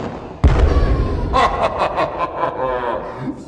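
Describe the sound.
A firebolt spell cast at a dragon bursts in with a sudden heavy blast and deep rumble, then a lingering roaring wash as a voice rises over it.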